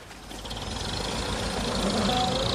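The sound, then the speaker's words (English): A car engine runs as the car leaves, a steady low rumble with a fine rapid vibration that swells slightly in loudness. “the car is leaving.”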